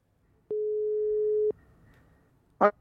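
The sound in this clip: A single telephone ringback tone plays while a call is being placed: one steady, mid-pitched beep lasting about a second, alone against near silence, followed by a short burst of sound at the end.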